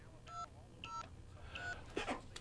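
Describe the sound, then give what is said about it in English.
Telephone keypad dialing tones as a number is punched in to reach a prize winner: three short, steady two-tone beeps at roughly even intervals, followed by a brief rough clatter over a low background hum. “I think you're getting very good at dialing that.”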